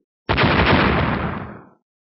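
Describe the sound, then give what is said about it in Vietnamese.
A cluster of explosions goes off almost at once as bursts of energy clash. They merge into one loud, roaring blast that holds steady, then thins and fades over about a second and a half. “Mấy tiếng nổ gần như đồng thời truyền ra.”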